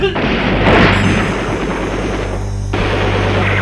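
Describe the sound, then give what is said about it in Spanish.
A firing squad lets off a volley of gunshots: a loud booming burst that rolls on as a dense, sustained roar. “63 impactos le metieron al tipo.”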